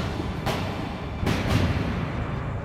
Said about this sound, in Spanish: agarré la pistola con las dos manos, apuntando directamente a su cabeza, a menos de un metro. Disparé.